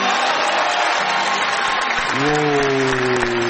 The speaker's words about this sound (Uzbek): Ovoz loyihasida ukrain tilida kuylangan qo'shiq auditoriyaning guldiroz qarsaklari bilan qabul qilindi.